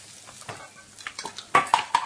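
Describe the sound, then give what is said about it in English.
Canned food tipped from an opened can into a saucepan while cooking: soft scraping and shuffling, then three sharp, ringing metallic clinks close together near the end. “Press down so the spike pierces the lid, then turn the handle. Hey! Now tip them in the saucepan.”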